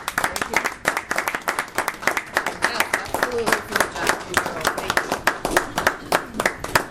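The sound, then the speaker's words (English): A standing ovation for a retiring county employee with 32 years of service: dense, steady clapping from many hands that runs through the whole stretch, with voices mixed in underneath. “You said standing ovation. You said it.”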